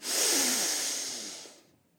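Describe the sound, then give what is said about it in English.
A deep, long breath drawn in, heard alone as a steady airy rush lasting about a second and a half before it fades away. “Take a deep, long breath in.”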